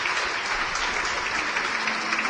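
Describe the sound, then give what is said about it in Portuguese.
Congregation applauding during a church service: dense, continuous clapping at an even level with no voices standing out, filling the whole clip. “E vamos aplaudir o Senhor Jesus por cada vida que está chegando. Vamos aplaudir mais o Senhor.”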